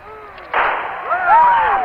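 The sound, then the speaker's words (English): A single gunshot fired during an assassination attempt on President Gerald Ford, a sudden sharp crack that breaks into talk, with excited voices continuing after it. “Hey! My God, there's been a shot.”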